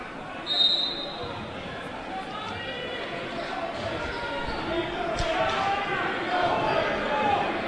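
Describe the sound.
A basketball is dribbled on the court during a game, its bounces running under a commentator's continuous talk and a steady backdrop of crowd noise.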